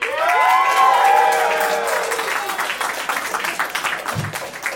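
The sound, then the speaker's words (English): A live audience at a show in Los Angeles cheers and applauds loudly, with high whoops and shouts swelling at the start and steady clapping that gradually thins out. “Make some noise for Rock Slur.”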